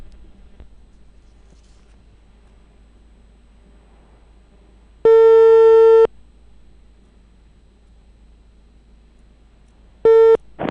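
Telephone ringback tone while dialing a town government office number: two steady, evenly pitched tone bursts about four seconds apart over faint background hiss. The first lasts about a second and the second is cut short.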